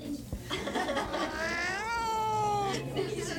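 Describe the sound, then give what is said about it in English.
An adopted cat meows while trying to crawl out a window, giving one long, wavering, whining yowl over a low, steady background hum. “The cat's trying to crawl out the window.”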